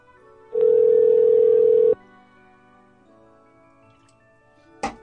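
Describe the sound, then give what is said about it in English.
Ringback tone from a call to a home telephone number. A single steady, mid-pitched tone lasts about a second and a half, then the line goes quiet until a brief click at the end. “All right, I'm going to try three times and see if these Wellers pick up.”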